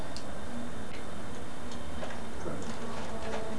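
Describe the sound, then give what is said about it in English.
Light, regular clicking as a screw is turned into a hole during an assembly task, a steady run of faint ticks over a constant background hiss, with no talk. “Now you turn it. Very good. And this one in here? Yeah, can you turn the screw?”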